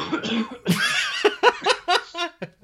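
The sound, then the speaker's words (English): Harsh coughing from someone choking after accidentally inhaling a drink: several raspy, uneven bursts in quick succession, fairly loud and heard on their own. “excuse me. Choking.”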